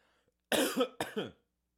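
A cough clearing something from the throat: two harsh, fairly loud bursts in quick succession, heard alone with no talk.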